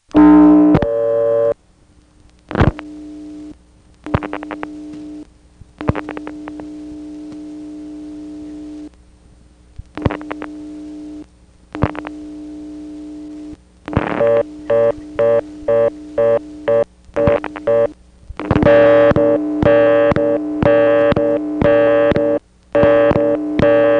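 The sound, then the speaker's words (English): A telephone reorder tone sounds on a callback circuit after dialing, and a busy signal then layers over it. Steady tones broken by gaps lead into fast, evenly repeating beeps, followed by denser overlapping beeping. “he gets a reorder on the 6th digit, and then when he dials one more, the busy gets superimposed over the reorder.”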